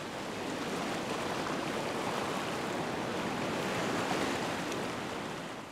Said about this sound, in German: Da kann sich jeder gefahrlos in die Fluten stürzen, schwimmen wie in einer riesigen Badewanne und sogar mit Wellengang.